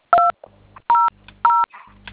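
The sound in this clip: A telephone keypad dials a number as three separate beeps at uneven gaps, each a clear dual-tone chirp, with a low steady hum and faint clicks between presses.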